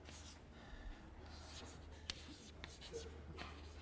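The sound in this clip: Handwriting with a pen, faint scratchy strokes and soft taps spread irregularly across a few seconds of quiet, with one brief sharper click partway through.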